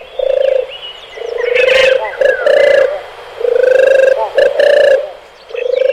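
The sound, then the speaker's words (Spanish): A European turtle dove sings a deep, soft purring trill in repeated rolling phrases with short gaps between them, while brief chirps from other birds break in over the song. “También es un canto muy peculiar el de la tórtola europea, Streptopelia turtur.”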